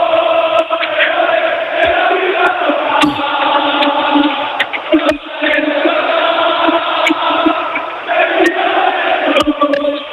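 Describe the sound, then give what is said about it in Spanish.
Málaga football fans roar in a stadium, celebrating promotion to the first division after eight years. The dense crowd noise holds loud and unbroken, with scattered sharp bangs cutting through. “Y este es el sonido de la afición del Málaga, porque están todavía todos los jugadores aquí, saltando, celebrando que el Málaga jugara en primera división 8 años después.”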